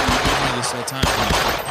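Gunfire sound effect: a rapid run of many sharp, loud bursts in a steady rhythm, continuing without a break for under two seconds.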